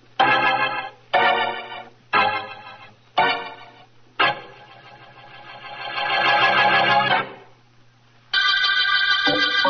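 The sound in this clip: A telephone rings in buzzy, harmonic bursts: several short rings, then a longer held ring, a pause, and one more ring that starts just before the end.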